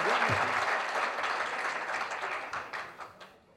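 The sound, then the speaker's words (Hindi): Loud, dense clapping from an audience at a Hindi song and poetry recital. It holds steady as a continuous wash, then gradually fades toward the end. “एक जोरदार ताली बजाओ”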